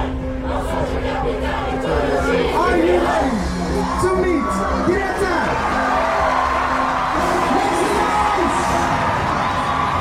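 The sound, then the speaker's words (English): A vast crowd of students at an activist rally, a loud, continuous wall of shouting, whooping and cheering voices that holds steady throughout. “a vast crowd of students pump their fists and hop back and forth together”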